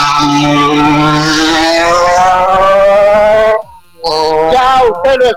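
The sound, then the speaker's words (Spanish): A race car engine roars as the car sets off, loud and sustained with a steadily rising pitch. It cuts out briefly near the end, then revs again. “Ruge ese motor de Michael Montaño y ya está en camino, ya está en ruta, ya partió”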